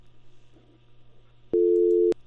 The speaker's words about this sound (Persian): لاین قطع شو فکر کنم.